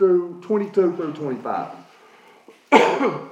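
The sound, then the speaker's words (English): A single harsh cough bursts out loudly after a preacher's speech during a sermon, with a brief faint sound just before it. “Excuse me, I'll try not to cough and hack into this.”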